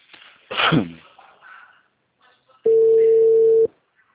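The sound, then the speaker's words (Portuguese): A telephone call is placed, and a single steady ring tone sounds for about a second, preceded by a short breathy noise and brief quiet. “Não, eu vou fazer a ligação.”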